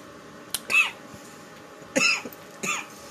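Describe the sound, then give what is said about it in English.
A person coughs harshly after taking a deep, heavy inhale of a hit, in three separate rough bursts with short quiet gaps between them. No talk is heard. “You just coughed for a minute straight.”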